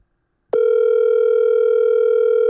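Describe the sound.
A telephone dial tone sounds while a call is being placed: a single steady, loud, unbroken tone begins after half a second of silence and holds at a constant pitch until the end.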